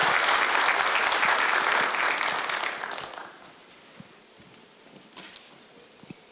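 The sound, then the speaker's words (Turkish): Dense audience applause at a formal ceremony as an official is invited onstage to present gifts. It is loud and steady for about three seconds, then dies away to a few scattered claps. “Milli Güvenlik Kurulu Genel Sekreteri Vali Sayın Okay Memiş'i bir kez daha alkışlarımızla sahneye davet ediyoruz”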